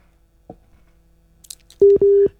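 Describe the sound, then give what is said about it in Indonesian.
Two short, steady beeps of a telephone busy tone after a caller's line drops during a radio call-in. The tones are mid-pitched and loud, following near silence with a few faint sounds. “Oke deh, terputus ya.”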